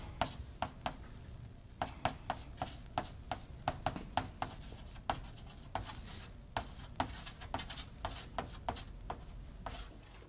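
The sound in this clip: Writing an equation on a board during a physics lecture gives many sharp taps and short scratchy strokes in an irregular rhythm, over a quiet background.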